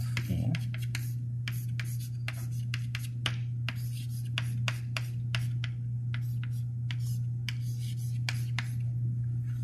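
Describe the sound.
An equation being written by hand, with many short, scratchy strokes and taps in an irregular rhythm over a steady low hum.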